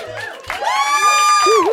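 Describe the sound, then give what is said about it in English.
Studio audience cheers with a loud, drawn-out whooping "woo" that swells and holds at full volume to the end, with mixed crowd voices beneath. “There really is a queued up woo for Love It or Leave It that the audience recreates for us every day”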